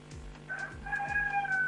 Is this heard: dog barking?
no